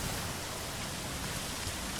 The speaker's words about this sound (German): Der Regen ist ungleichmäßig laut.